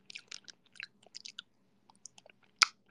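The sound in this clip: Someone chews pickled okra dipped in a dip, producing faint, irregular wet crunches and clicks scattered through the moment, with one sharper crunch near the end.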